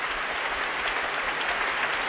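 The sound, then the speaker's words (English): Audience applause at an orchestral concert, a dense, steady wash of many hands clapping at an even level throughout, with no voices over it. “And applause now for Andrew Haviland leading the John Wilson Orchestra tonight.”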